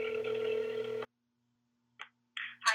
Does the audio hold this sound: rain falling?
no